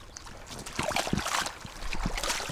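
Stream water splashes and trickles as rubber boots are washed in it after hours of peat cutting, giving irregular sloshes and gurgles at a moderate level.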